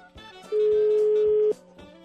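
A telephone tone sounds while a number is dialed for a call: one clear, steady beep at a single pitch that lasts about a second over a faint background.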